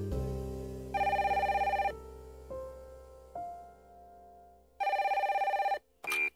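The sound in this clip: An incoming call from an anonymous number sets a telephone ringing. Two electronic trilling rings are separated by a pause, and the start of a third is cut short.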